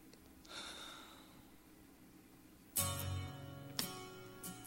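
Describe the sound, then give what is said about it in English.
A man's heavy breathing opens a song, faint and airy over a low hum, before loud music bursts in with a sharp accent partway through, and another strikes later. “I heard the breath at the beginning. He breathed heavily.”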